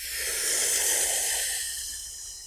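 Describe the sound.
A single long breath drawn in through the mouth during a guided breathing exercise, a steady airy hiss that swells and then slowly fades, with no talking.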